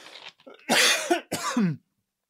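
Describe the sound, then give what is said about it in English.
Throat clearing and coughing: a few harsh, rasping bursts of varying length follow a softer start, each ending in a low, gravelly rumble, with no talk over them. “Hold on, I've got something in my throat.”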